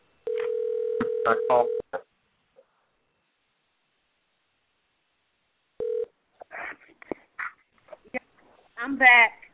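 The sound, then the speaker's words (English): Telephone line tones as a number is dialed, a steady tone sounding for over a second under a voice, then silence, a short second beep, and then people talking. “I dialed the wrong number. I put a wrong number in your number.”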